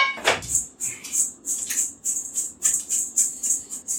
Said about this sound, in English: All right, I'm breading the nuggets. Should have shallower bowl.